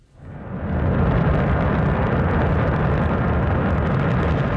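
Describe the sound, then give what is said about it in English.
Deep, dense roar of China's Shenzhou 23 rocket blasting off from a launch center in Inner Mongolia. The sound swells within the first second, then holds loud and steady, with no voices. “That's the sound of China's Shenzhou 23 rocket blasting off on Sunday from the Jinquan Launch Center in Inner Mongolia.”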